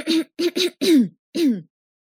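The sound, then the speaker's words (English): A voice imitates throat clearing with five short, gravelly bursts in quick succession. The last two are longer and fall in pitch, and nothing else is heard. “What sound do you make when clearing your throat? Well, it's something like”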